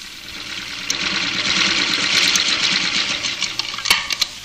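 A sewing machine stitches a seam during a home economics class, giving a steady mechanical whirr with fast, even rhythmic ticking throughout and a few sharper clicks near the end.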